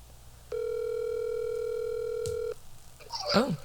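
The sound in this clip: Ringback tone of an outgoing telephone call, a single steady, loud electronic tone of about two seconds over faint background hiss. It stops abruptly and a short voice follows.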